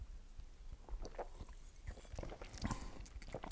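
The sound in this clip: Someone sipping Federweißer, a young wine: faint wet slurps and small mouth clicks, quiet and irregular over a few seconds.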